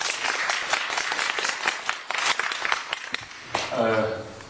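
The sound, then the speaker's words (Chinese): Applause from a church gathering welcoming first-time visitors: a dense, steady burst of clapping from many hands that fades as a voice begins speaking near the end. “今天我们头一次见面的举个手，我们给他们一个掌声好不好？”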